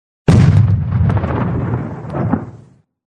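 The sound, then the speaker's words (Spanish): A single artillery gun firing in the mountains: one sudden, loud boom followed by a long rumbling decay that fades out over about two seconds. “Alcance 32 metros. ¡32 metros! ¡Listo! Proyección 39 grados. ¡39 grados! ¡Listo! ¡Fuego!”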